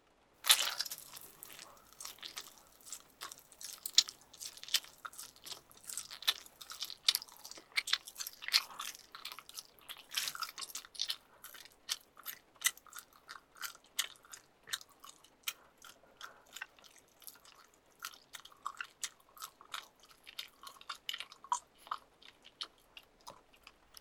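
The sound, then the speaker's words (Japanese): Someone eats slowly, with many crisp crunching bites and chewing sounds that repeat steadily and faintly on their own. “ゆっくり食べるね。”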